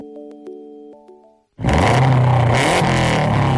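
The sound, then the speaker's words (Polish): A rally car's 280-horsepower engine revving, a loud sustained roar that bursts in after a few short electronic tones and holds at full volume to the end. “Tak brzmi 280 koni mocy samochodu rajdowego Kajetana Kajetanowicza, dwukrotnego mistrza Europy.”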